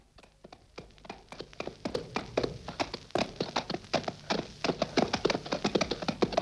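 Hoofbeats of a brown horse ridden off at speed: rapid clopping strikes that start sparse and grow quicker and denser into a steady run of loud hits, with no voices.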